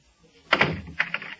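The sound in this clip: A door shutting with one solid thud, followed by a few quick, lighter clicks of it being locked.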